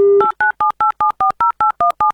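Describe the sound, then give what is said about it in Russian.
Touch-tone telephone dialing for a radio call-in game: a steady dial tone, then a rapid, evenly spaced run of many short dual-pitch beeps, loud and clear, with no voices. “а для этого, естественно, набираем номер телефона”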